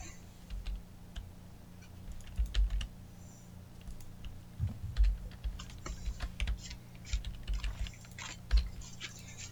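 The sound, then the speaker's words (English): Typing on a computer keyboard during an online tabletop role-playing game session: many quick, irregular key clicks and taps, soft and fairly faint, sounding over a low steady hum without any talking. “And somehow I locked my copy paste, so let me quick type that in.”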